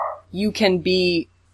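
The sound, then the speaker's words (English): A dog gives a few short, yelping barks in quick succession, fairly loud and clear over a low, steady hum. “Yeah, no, there's just a dog.”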